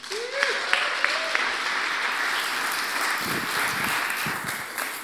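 Applause from a church audience welcoming a preacher to the front at a Harvest Ottawa service: steady, dense clapping that holds at an even level for about five seconds.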